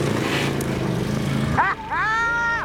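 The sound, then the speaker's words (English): A V-twin 1,000 cc motorbike engine of nearly 200 horsepower gives a loud, droning roar for about a second and a half, then cuts off as voices take over. “V-twin motorbike engine, 1,000 cc's, nearly 200 horses”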